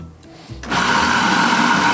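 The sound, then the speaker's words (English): A blender starts up after a brief quiet thump and settles into a loud, steady high whir as it purées soaked aromatics into a chunky vegan fritter batter. “you blend them into kind of a fritter batter. Chunky.”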